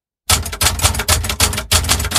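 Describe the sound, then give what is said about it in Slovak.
Typewriter keys clatter in rapid runs of sharp mechanical strikes, grouped into a few quick bursts with short pauses between them, loud and alone. “V časoch, keď ešte neboli počítače ani tablety, boli písacie stroje. To sú také mašinky, ktoré majú klávesnice a na nich sa ťuká.”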